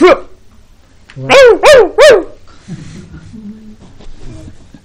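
A person imitates a dog barking with three loud, harmonic woofs in quick succession, each rising and then falling in pitch.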